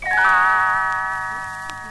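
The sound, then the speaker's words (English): Little bells chime once as a page-turn signal, a bright ringing tone struck at the start that sustains and slowly fades over about two seconds. “You will know it is time to turn the page when Tinkerbell rings her little bells like this.”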